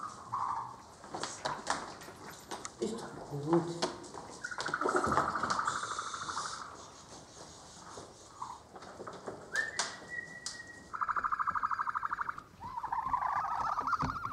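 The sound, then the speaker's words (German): Chicks being caught and trying to escape give repeated high, tonal cheeps, some short and some drawn out into longer sustained calls, rising and falling in loudness throughout. “Die Küken lassen sich problemlos einfangen, versuchen aber gleich wieder auszubüchsen.”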